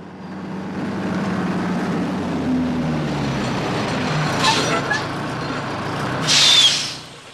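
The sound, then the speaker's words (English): A heavy truck rig with two exhaust pipes drives through the night with a steady, deep engine rumble, then gives a sharp, brief air-brake hiss near the end. “Now he drives through the night in his rig, headlights blazing and fumes trailing from its two exhaust pipes.”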